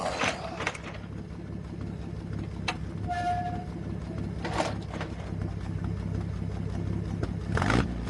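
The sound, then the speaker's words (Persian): Diesel vehicle engine, with a battery that needs charging, running steadily just after starting: a continuous low rumbling drone with a few brief sharper noises over it. “Engine started. It's working.”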